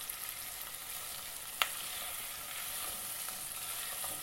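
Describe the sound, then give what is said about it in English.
Onion fries in a pan while being stirred, giving a faint, steady sizzle and hiss throughout, with one brief tap partway through and no voices. “I'm just giving that a good shove around the pan because it says to keep stirring it.”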